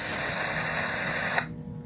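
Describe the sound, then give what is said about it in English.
Radio interference static: a dense, steady hiss with a thin high whine running through it. A sharp click near the end cuts the whine off, leaving a duller noise. “And it's causing interference on his radio.”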